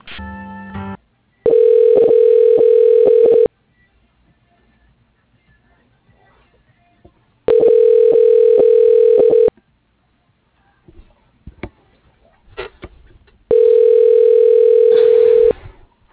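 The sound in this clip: Ringback tone plays while a telephone call is transferred: three long, steady electronic bursts of about two seconds each, separated by quiet gaps with a few faint clicks.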